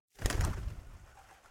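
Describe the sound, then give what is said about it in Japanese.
A bird takes flight with a short, breathy whoosh of flapping wings that swells quickly and fades away over about a second. “鳥は私たちを背中に乗せて、また飛び立つ。”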